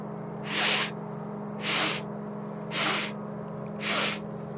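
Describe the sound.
Four slow, even exhalations through the nose during a relaxation breathing exercise, each a soft airy hiss separated by short quiet pauses.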